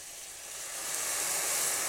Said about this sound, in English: Now we're going to add our wine. Let's get the wine in there.